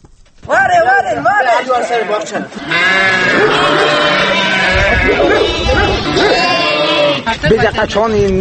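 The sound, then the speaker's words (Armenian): Loud, continuous bleating of a sheep flock in Zvartnots, a village in Armenia's Armavir province, with many overlapping wavering calls that keep going almost without pause. “Հայաստանում անցած տարվա մայիսից պակասել ու շարունակում է նվազել ոչխարի բառաչը, նույնիսկ եզդիաբնակ գյուղերում։”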